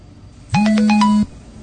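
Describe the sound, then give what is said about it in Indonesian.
A mobile phone's SMS message ringtone goes off in a bedroom at night: a short run of bright electronic notes over a steady low tone, lasting under a second and heard alone in quiet. “Oh, siapa lagi sih nih? Si adik nih kayaknya nih. Kupikir itu SMS dari adikku, tapi ternyata bukan.”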